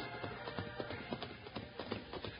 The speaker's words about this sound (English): among those who rode into Sunshine Valley to celebrate were Wild Bill Hickok, United States Marshal, and his fun-loving deputy, Jingles.